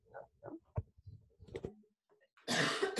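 A cough and throat clearing from a tickle in the throat, heard as one harsh, rough burst near the end after a stretch of short, quiet sounds.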